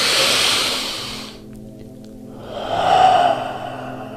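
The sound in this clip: A deep breath drawn in through the nose during a guided breathing exercise: a long, airy rush of air, loud and alone, separated by a brief quiet gap from an earlier breath.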